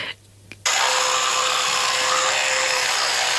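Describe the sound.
An electric toothbrush switches on after a quiet moment and a faint click. It gives a loud, steady, high buzz with a constant hum that continues unbroken to the end.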